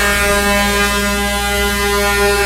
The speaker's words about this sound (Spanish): Uy, suena largo. Los pitos que yo tengo aquí. Suena largo y tendido.